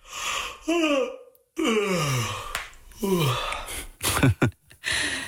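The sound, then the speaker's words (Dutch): A person yawning, giving a few drawn-out, breathy vocal sounds whose pitch slides downward, separated by brief pauses. “Want dit geluid, iemand die geeuwt.”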